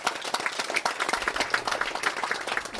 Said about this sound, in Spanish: Vamos a darles un aplauso.